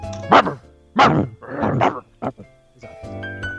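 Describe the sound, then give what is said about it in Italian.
A dog barking in a few sharp, harmonic bursts with short gaps between them, ending in a longer drawn-out yelp, loud and with no talk over it. “Sai che verso fa il cane di William Shatner?”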